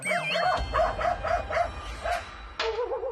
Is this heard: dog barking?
yes